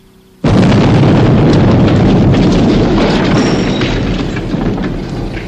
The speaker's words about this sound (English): Right, detonate.